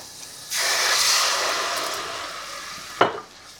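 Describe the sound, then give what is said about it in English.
White wine splashes into sizzling olive oil and onions in a pan, setting off a sudden loud, steady hiss that slowly eases, then a brief sharp tap near the end. “I put some white wine now over here.”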